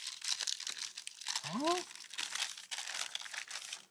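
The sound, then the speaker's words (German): Baking paper is peeled away from a baked sponge cake, giving a continuous dry crinkling and rustling full of rapid small crackles. “Und wir haben also dann hinterher ein Ergebnis, wo wir das Backpapier schön abziehen können.”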